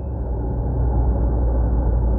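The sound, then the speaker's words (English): Steady engine and road rumble from a car being driven, a dense low drone that holds evenly loud throughout with no voices. “So while I'm doing this drive, I'm going to talk about something”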